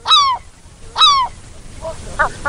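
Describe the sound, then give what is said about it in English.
Seagull call sound effect: two loud, harsh squawking cries with bright, slightly falling harmonics, then a few fainter, shorter calls near the end. “All right, that was the sound of a seagull.”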